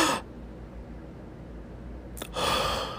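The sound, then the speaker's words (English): A person demonstrates breathing: a quick, audible inhale at the start, a long quiet hold, then a strong breathy exhale near the end, with no talking. “you know, inhale, hold it, and then exhale.”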